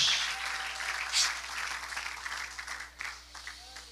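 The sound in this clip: A church audience applauding, a dense, sustained wash of clapping that stays steady before thinning slightly toward the end.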